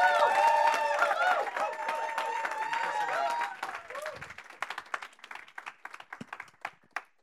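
An audience on its feet applauds a guest, Francesco Basile, being welcomed to the stage: dense, loud clapping with some tonal whoops at first, thinning into scattered, fading claps over several seconds.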